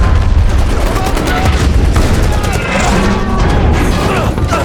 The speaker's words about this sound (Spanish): ¡Tengo que recargar! ¡Fuego! ¡Yo disparo!